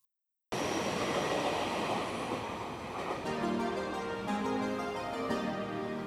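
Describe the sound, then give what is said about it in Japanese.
A rapid-service train passes through a station platform with a loud, continuous rumble and rush. It begins abruptly after a short silence, and a few sustained squealing tones appear in the later half. “まもなく2番線を快速白百合ヶ丘行きが通過いたします。”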